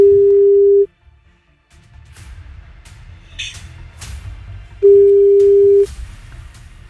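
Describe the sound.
Telephone ringback tone on a call to a florist: two long, steady mid-pitched tones separated by a pause, with faint line noise and a few soft clicks between them.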